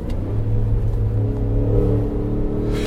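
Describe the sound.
A Cadillac Escalade engine revs as it drives under a bridge, giving a deep, continuous rumble with a steady low drone that swells slightly. It is loud throughout.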